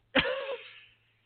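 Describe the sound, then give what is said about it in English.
A voice imitates a sneeze with one sharp, loud burst. A breathy, tonal tail follows and fades out within about a second. It is heard alone. “I've been doing that, and then having to sneeze like.”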